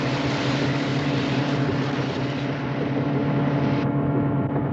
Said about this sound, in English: Oh, wait, nope, we're back to crazy speedboat, man.